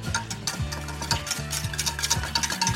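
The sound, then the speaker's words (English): A buttermilk marinade with seafood seasoning and chipotle powder is whisked in a bowl: rapid, steady scraping strokes that repeat in a fast rhythm. No voices are heard. “Give this a little whisk.”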